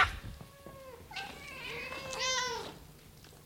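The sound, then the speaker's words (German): Several cats meow as a drama sound effect, with drawn-out, overlapping cries that vary in pitch and stay fairly quiet throughout. “Vier Katzen kamen angeschlichen und setzten sich im Kreis um die Alte.”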